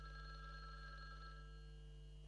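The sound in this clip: A telephone rings with a steady, faint, sustained electronic tone over a low hum, continuous without breaks.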